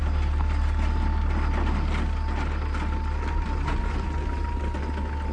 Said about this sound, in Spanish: El jeep de Sharon avanza por un camino de tierra en medio de la nada.